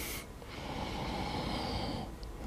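Loud, airy breathing in and out during a slow counted breathing exercise, with a sharp burst of breath at the start followed by one long, steady breath.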